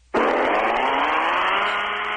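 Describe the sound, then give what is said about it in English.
A blender whirs while making a margarita. It starts abruptly and holds a loud, steady motor whine. “Are you making one right now? Yeah. Oh, that's the blender?”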